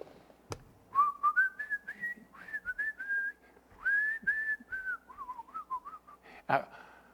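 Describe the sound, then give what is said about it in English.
A man whistles a cheerful tune alone in a church kitchen. The clear, fairly faint phrases rise and fall in pitch in short connected notes with brief pauses between them. “And all of a sudden, I started whistling.”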